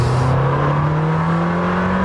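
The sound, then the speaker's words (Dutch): An Italian sports car's V8 engine accelerates in a loud, continuous drone, its tone climbing slowly and steadily for the full two seconds with no other sounds standing out. “Helaas de V10, hè, die we kennen uit de Gallardo en de Huracan en een paar Audi's. Die is er niet meer, maar ze hebben het goed gemaakt, deze V8.”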